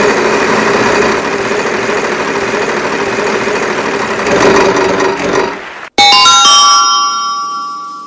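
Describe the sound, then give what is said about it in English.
A prize wheel spins in a hockey player game segment, a loud, steady whirring rattle lasting about six seconds. After an abrupt cutoff come bright ringing chime tones that slowly fade. “Now, let's spin the wheel.”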